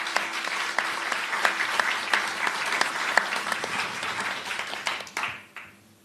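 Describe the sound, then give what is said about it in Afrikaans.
Applause from an audience at a book launch during the Woordfees literary festival: dense, steady clapping from many hands that thins and fades out near the end. “Applaus.”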